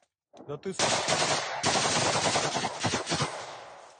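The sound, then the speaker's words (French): Automatic weapons fire at the execution of a prisoner of war: a few sharp opening shots, then a dense, loud, continuous burst of rapid gunfire lasting a couple of seconds before thinning out at the end. “Avant de tomber sous une rafale d'armes automatiques.”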